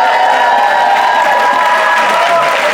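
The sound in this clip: Cheering and applause from a theatre audience at Leicester Square Theatre greet comedian Maria Bamford's entrance, a dense, continuous roar of clapping and shouts that holds steady and loud throughout.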